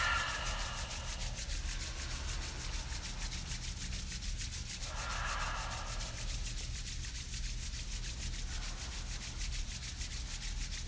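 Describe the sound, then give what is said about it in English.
Palms rubbed together quickly during a yoga session make a steady, continuous dry swishing friction for about eleven seconds, even in loudness and heard alone without talk. “Create some heat already, rubbing your palms together quickly.”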